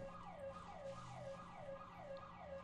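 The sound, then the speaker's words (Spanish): Sirens wail in a fast, repeating rise-and-fall pattern, cycling many times. They sound faint over a low, steady rumble, with no voices. “¿Y ese terminar con sirenas, qué onda o qué es? No sé, es parte de la ambientación.”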